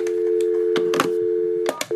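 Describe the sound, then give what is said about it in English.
A steady telephone tone hums throughout as a caller dials a health insurance company, broken by a few short, sharp key-press clicks. “Okay, I am about to dial my health insurance company.”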